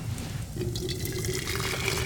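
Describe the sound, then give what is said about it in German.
Water runs into a large pot holding laundry, a faint, steady gushing with a sustained tone as it fills, heard alone. “Ich tue die Wäsche in einen großen Topf und fülle ihn mit Wasser auf.”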